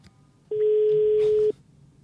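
A phone call ringing unanswered, heard as a single steady mid-pitched ringback tone that lasts about one second, then cuts off, over a faint low background.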